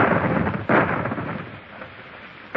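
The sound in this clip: A warship's guns fire in deep, rolling booms, a sharp burst near the start swelling into a low rumble that fades, then another burst at the very end.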